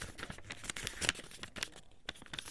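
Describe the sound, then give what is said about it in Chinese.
Paper rustling and crinkling as a square sheet is folded in half. Many small, dry crackles and soft scrapes come in quick, irregular bursts, fairly quiet and with no voices. “先把一张正方形的纸一折二，对折”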